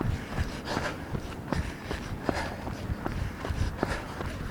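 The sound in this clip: Footsteps of a person running, a steady stream of many soft, rhythmic footfalls at an even pace, moderately faint and heard alone without talk.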